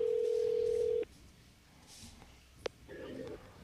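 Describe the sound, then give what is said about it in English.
An outgoing telephone call: a steady ringing tone lasts about a second, then quiet follows, broken by a sharp click and a faint tonal burst near the end. “All right, calling Cully back. Calling Cully back.”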